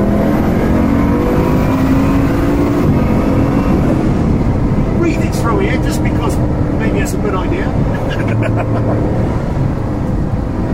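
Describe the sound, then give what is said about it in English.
A car engine accelerating in third gear around a race track gives a loud, continuous roar that holds steady throughout, with voices talking over it. “So now we're in third gear now, so we'll just get it going down there.”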